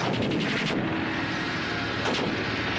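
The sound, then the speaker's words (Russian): Gunfire in a war film battle scene with tanks under fire and enemy infantry falling. A dense, loud, sustained roar of shooting runs throughout, with a couple of sharper, brighter bursts standing out. “Выстрел Борзых.”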